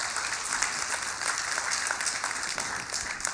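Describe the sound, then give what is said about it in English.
Half-hearted applause from an audience: thin, scattered clapping at low volume, holding fairly even for about three seconds without building up. “And a half-hearted clap for Nathan.”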